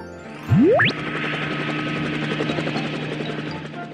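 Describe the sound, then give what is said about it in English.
Helicopter sound effect in a children's vehicle song: a quick rising whistle opens it, then a steady, fast, rhythmic rotor chop drones on at an even level with no voices. “A helicopter goes wop, wop, wop.”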